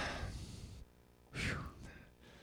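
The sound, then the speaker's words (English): Heavy breathing blown straight into a microphone: a loud, rushing breath, a pause, then a second strong gust and a softer trailing exhale, all breathy and airy without words. “I breathed really hard into that for a second.”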